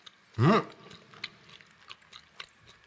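Someone chews fatty meat. A short voiced hum is followed by faint, irregular wet clicks and smacks of mastication.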